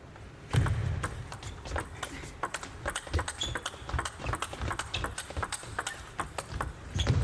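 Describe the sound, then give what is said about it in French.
Sharp pops of a fast tennis rally, including a mishit off the edge of the racket, with many quick, crisp strikes in an uneven rhythm and a few heavier thuds at the start and end. “Ah oui, elle s'excuse parce que au bruit, je pense qu'à un moment donné, elle a touché la balle avec la tranche de sa raquette. C'était pas tout à fait maîtrisé, mais c'était beau quand même.”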